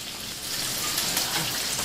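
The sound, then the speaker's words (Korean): Fish coated in a special seasoning fries in oil, giving a steady, dense sizzle and crackle that holds at an even level throughout, with no talking. “각종 채소를 다지고 생선에 특유의 양념을 해서 기름에 튀기기 시작합니다.”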